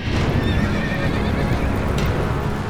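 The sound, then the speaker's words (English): Loud whinnying and clip-clopping hooves from a horse-drawn chariot racing across a field, a steady, busy stretch of hoofbeats with a high neigh over them. “Malinoe and Asclepius looked toward the horizon. A horse-drawn chariot was rocketing toward them across the field,”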